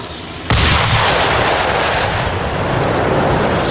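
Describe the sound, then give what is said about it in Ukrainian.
A large bomb dropped on an enemy shelter explodes in one sudden, loud blast. The blast gives way to a sustained, heavy roaring rumble that persists to the end over constant background noise. “А слідом до ворога летить вже велика бомба, яка може повністю знищити укриття загарбників.”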